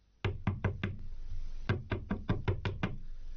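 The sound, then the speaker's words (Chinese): A fist knocks hard on a door, as someone pounds to be let in. A burst of four rapid, loud knocks is followed after a short pause by a second burst of seven, over a steady low background hiss. “他砰砰砰的敲门，边敲还边喊”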